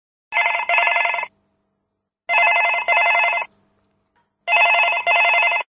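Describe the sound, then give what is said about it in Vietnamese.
Telephone bell ringing in three bursts, each a bright, buzzy double ring, separated by silent gaps of about a second. “Khi chuông điện thoại reo, bác sĩ Clinton Shannon”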